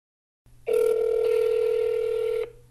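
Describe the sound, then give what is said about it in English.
A steady single telephone tone sounds while calling a disconnected number. A short click comes first, then the tone holds for about two seconds with no talk. “I tried calling the number on Panhandle Slim's business card.”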